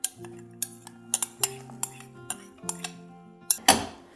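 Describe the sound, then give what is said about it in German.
Chopped bell pepper and a handful of radishes tumble into a bowl for a salad, giving a scattered series of light clinks and taps, ending with a louder, fuller rustling clatter. “Ich habe hier eine Paprika schon klein geschnitten. Die kommt in die Schale hinein. So, eine Handvoll Radieschen.”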